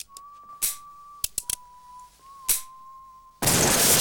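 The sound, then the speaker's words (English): Gunshot from a bounty hunter's gun. A few dry mechanical clicks and taps sound over a steady high tone, then a sudden loud blast bursts in near the end and fills the rest. “The bounty hunter points his gun at Billy's head, then pulls the trigger.”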